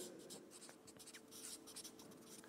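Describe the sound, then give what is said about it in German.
Scratchy handwriting as the word 'Geduld' is written out: many short rasping strokes in quick succession at a fairly even level, with no talking. “ich schreibe jetzt mal Geduld, ja?”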